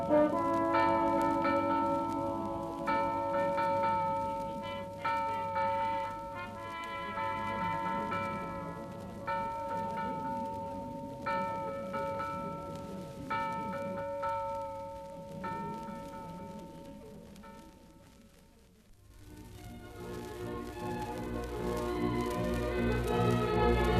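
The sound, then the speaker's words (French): A castle alarm bell rings out in repeated struck peals, the metallic tones hanging and overlapping in a steady rhythm, dipping quiet briefly before a louder, denser burst of clanging near the end. “Maître, maître, la cloche d'alarme, la cloche d'alarme ! L'alarme !”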